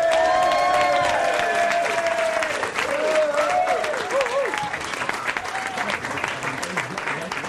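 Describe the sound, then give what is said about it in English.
Audience applause with some cheering as a stand-up comedian is welcomed to the stage, a dense, steady wash of clapping that holds loud throughout and eases slightly toward the end. “would you put your hands together and give a big warm welcome to James Goldsberry?”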